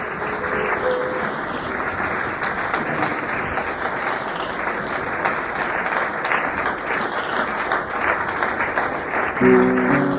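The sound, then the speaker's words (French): A church audience applauds in a dense, steady wash of clapping that stays loud and even throughout, with no pause. “Nous sommes en train d'acclamer notre roi.”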